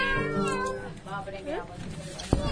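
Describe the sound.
A child imitates a cat's meow in a primary school classroom, giving a few drawn-out, wavering meows mixed with talk from others.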